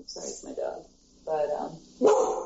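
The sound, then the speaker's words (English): A dog barks a few times in quick succession, loud sharp yelps separated by short pauses, with the final bark the strongest. “I'm sorry, it's my dog”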